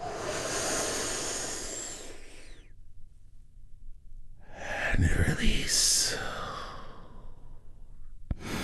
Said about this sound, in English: just follow my lead as we're going to take one big, deep healing breath all together